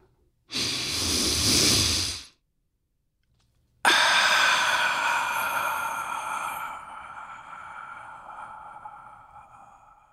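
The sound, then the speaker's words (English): A deep breath taken at the start of a guided moment: a full inhale lasting about two seconds, a short silence, then a longer breath out that begins strongly and slowly fades away. “And now, if you're ready, let's take a deep breath.”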